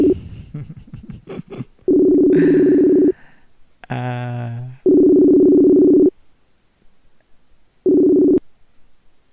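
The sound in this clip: Telephone ringback tone on an unanswered call to a mother: three steady mid-pitched tones, each about a second long, separated by pauses, with the last one cut short and a brief voice between the first two.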